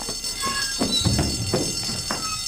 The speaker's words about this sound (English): I think that's the fire alarm, so if you pack up your things, make your way out of the building in an orderly fashion.